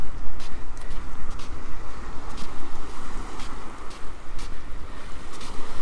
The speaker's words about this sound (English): The wind's picked up a bit.